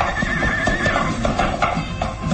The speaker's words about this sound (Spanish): Monta al caballo sin quitar la mirada sobre su fiel criado, el gitano Sarco.